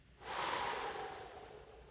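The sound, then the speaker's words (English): A group takes a deep breath together during a guided prayer, a soft breathy rush that swells in after a brief quiet moment and then holds, slowly fading. “Deep breath, everybody.”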